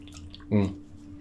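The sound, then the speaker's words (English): Old plumbing drips in a hotel room, giving one short watery plop with a ringing, gurgling tone over a low steady hum. “Old plumbing, I'm sure.”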